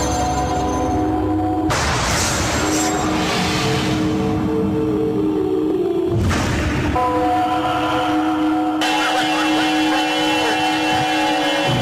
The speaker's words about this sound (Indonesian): bis patas SK jurusan Surabaya Jogja sudah meninggalkan terminal Bungurasi